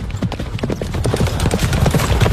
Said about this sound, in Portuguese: tá chegando o bicho, velho. De a cavalo.